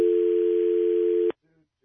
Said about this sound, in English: Now, let it ring for one moment to establish we're dialing.